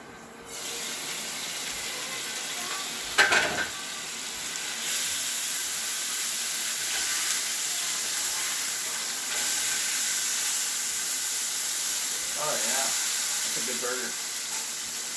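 A couple of burgers sizzling in a small pan: a steady, bright frying hiss runs throughout, broken by two brief louder bursts.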